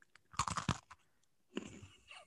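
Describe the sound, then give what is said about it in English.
Crunchy biting and chewing of a pink Oreo cookie with a green filling: a quick run of several faint crisp crunches, then a pause and softer, gritty chewing. “Okay, so it's like, is it going to taste like a regular Oreo? Here we go.”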